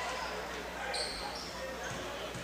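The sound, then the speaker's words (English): A few dull basketball bounces as a women's college player dribbles at the free-throw line before her first shot, under a commentator's voice and steady background noise. “A couple of dribbles. She'll get set for the first one.”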